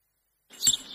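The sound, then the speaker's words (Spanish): Bird chirping on a morning in front of a forest: a short, bright burst of high tweeting after half a second of silence, brief and fairly faint, with no voices. “A los vecinos de Nueva Valdeluz les está costando adaptarse al silbido de los pájaros por las mañanas mientras toman el café frente al bosque.”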